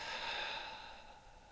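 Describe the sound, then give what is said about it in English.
A deep breath, drawn in and let out during a guided breathing exercise, comes as a soft, faint airy rush that slowly fades. “And take in a nice breath in. and out.”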